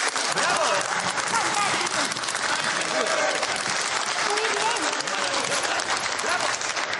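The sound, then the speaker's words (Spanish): Applause in a scene from a courtroom drama film: dense, even clapping runs without pause for seven seconds while a voice speaks over it. “Alice apaga la luz, sale y cierra. John aplaude.”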